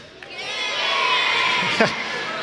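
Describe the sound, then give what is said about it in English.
A crowd of children cheers and shouts at a show, a sustained, bright roar of young voices that swells slightly and then eases, with one brief louder shout near the end. “That was really hard to cheer for.”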